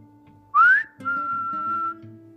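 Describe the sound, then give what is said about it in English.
A person whistles to imitate an eerie whistle heard while packing an overnight bag: a short note sliding upward, then a longer steady held tone, over faint low tones, with no speech. “distinctive, a whistle just like that. Even that tone.”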